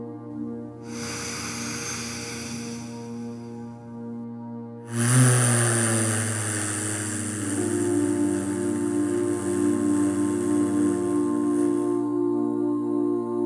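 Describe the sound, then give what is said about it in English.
Slow breathing exercise: a soft inhale of about three seconds, then a longer voiced exhale of about six seconds hummed as a steady, buzzing 'voo' tone, with no talk. “So that was a 3-second inhale and a 6-second exhale, making a voo sound, which helps to create a vibration that stimulates the vagus nerve.”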